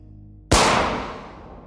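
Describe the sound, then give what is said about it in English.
A single sharp gunshot, an assassin firing into the back of Kirov's neck near a flight of stairs, bursts loudly out of a low background hum and trails off in a long, slowly fading decay. “the gunman withdraws his weapon and creeps up on his target. He fires into the back of Kirov's neck.”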